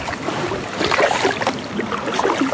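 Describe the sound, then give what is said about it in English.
A kayak paddles across a lake, with continuous swishing and splashing of water from the paddle strokes in a steady, moderately loud wash and no voices. “And he's off and paddling across the lake.”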